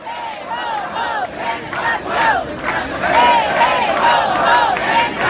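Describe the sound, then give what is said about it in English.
A crowd of protesters chanting at a protest, many voices shouting in a steady, repeated rhythm that stays loud throughout and swells slightly toward the end. “So some sound there from protests.”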